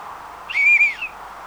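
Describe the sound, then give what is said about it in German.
A person whistles for help while stranded without water. The whistle is a single, steady, high-pitched note with a brief break and a slightly falling tail, heard alone over faint background hiss. “Vielleicht hört mich jemand, wenn ich pfeife.”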